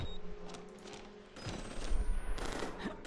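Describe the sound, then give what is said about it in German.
Video game gunfire on a battlefield where military characters have arrived: sustained, dense bursts of rapid shots form a continuous rattling barrage that swells louder toward the end, with no talk over it. “hier wird mies geschossen”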